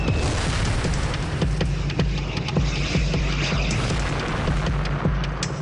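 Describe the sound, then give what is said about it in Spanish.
Rocket explosion effect in a World War II tank battle audio drama near Hochwald: a sustained low rumble with many sharp crackling bursts scattered throughout, loud and dense from start to finish. “Otra vez se escuchó el sonido de un tren en un túnel y luego la explosión.”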